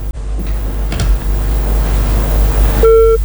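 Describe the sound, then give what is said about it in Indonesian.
A telephone line tone after a call disconnects. A couple of faint clicks sound over a steady low hum, then a loud, steady electronic tone begins near the end and holds. “Baik, teleponnya terputus”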